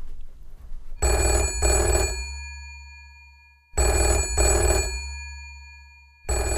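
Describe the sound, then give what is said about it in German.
A telephone rings loudly and brightly in repeated double bursts: two full rings, then the start of a third, each fading away before the next. No one talks over it. “Unser Mentor ruft an.”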